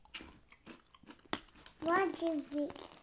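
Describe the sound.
Crunchy, peanut-smelling Brazilian snacks crackle and crunch as they are bitten and chewed, in a few crisp bursts among people talking.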